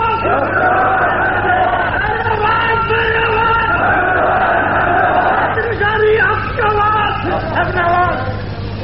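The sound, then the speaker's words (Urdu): A crowd chants slogans in many voices during a speech about an Islamic system of government. The chanting is loud, dense and continuous throughout, with no break. “نعروں میں میری بات کو آج ضائع مت کیجیے”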